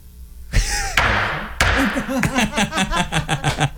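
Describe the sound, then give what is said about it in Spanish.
Gavel strike sound effect: two heavy thuds about a second apart, each with a long ringing decay, followed by a run of rhythmic voiced sounds. “Y mira, caso cerrado. Así va a sonar el bastoncito, chécate. Chécate nomás. Ahí va.”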